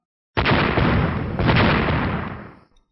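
A loud, booming burst of exploding golden light in a fantasy battle. A sudden sharp onset leads into a rumbling roar that swells again midway, then fades out.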